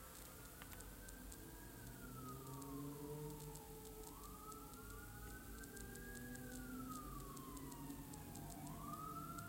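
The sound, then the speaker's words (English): A fire truck siren passes down a street as traffic pulls over, its faint wail sweeping slowly up and down in long cycles over a steady low road rumble. “Oh, there's a fire truck coming down my street, you guys. Everyone's pulling over.”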